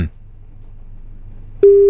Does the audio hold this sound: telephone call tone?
yes